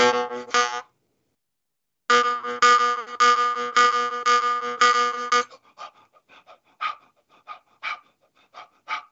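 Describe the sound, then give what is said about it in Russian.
Jaw harp played with rapid belly breathing: a brief, then longer stretch of buzzing, twanging drone with pulsing, shifting overtones, followed by a run of quick rhythmic breath puffs through the instrument, with no talk. “Я животом вот накачиваю воздух, да, вот как это выглядит уже в игре на варгане.”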